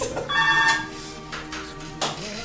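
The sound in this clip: Telephone ringing with a bright, warbling electronic tone in a few short bursts, moderately loud, with no voices.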